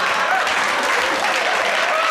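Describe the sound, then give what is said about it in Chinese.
Hands clap together during a playful clap-your-hands sing-along in a comedy sketch. The claps form a dense, continuous patter with no clear beat, staying loud and even for the whole short stretch. “如果感到快乐，一起拍拍手，啪啪啪！”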